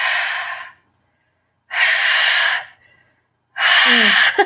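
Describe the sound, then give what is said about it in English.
A voice imitates heavy open-mouth breathing, producing three loud, raspy, breathy bursts, each roughly a second long, separated by short silent pauses. “I have a hatred of when people really heavily breathe with their mouth open. So it's like,”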